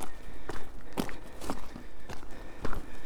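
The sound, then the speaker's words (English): Footsteps of a walker on a clifftop path along Leskeith Cliffs, a steady walking rhythm of dull crunching steps about two per second, fairly loud and alone without talk. “And I'm walking on the top of Leskeith Cliffs.”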